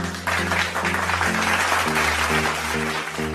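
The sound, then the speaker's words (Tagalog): Applause as people clap for themselves after a successful answer: a dense, steady patter that lasts throughout, layered over looping musical tones. “Palakpakan ang inyong sarili sa matagumpay na pagsagot.”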